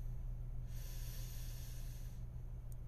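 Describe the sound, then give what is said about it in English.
A slow, deep inhale during a guided breathing exercise: a soft, steady, airy hiss of about a second and a half, faint over a low constant hum. “Breathing in. Into the top of the lungs, middle,”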